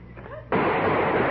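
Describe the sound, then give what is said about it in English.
A gunshot sound effect in a radio comedy sketch: a short voice is heard, then a sudden loud, harsh burst of noise that stays dense and sustained to the end. “Oh, they got me. They shot you because you moved.”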